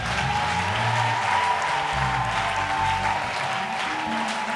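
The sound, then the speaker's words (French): A church audience applauding, a dense, sustained wash of clapping that holds an even loudness from start to finish with no clear breaks. “Oh, donne une acclamation à Jésus.”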